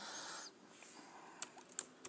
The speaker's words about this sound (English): Yeah, I'm gonna type you a note.